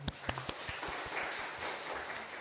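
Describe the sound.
Applause from a church audience congratulating a child: a faint, steady wash of many hands clapping, with a few sharper claps standing out at the start.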